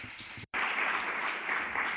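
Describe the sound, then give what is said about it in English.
Applause at a film festival press conference, a steady patter of many hands cut by a brief moment of silence near the start, then continuing evenly to the end. “So let's give a round of applause for Giuseppe Capotolde, who's going to come into the press conference now.”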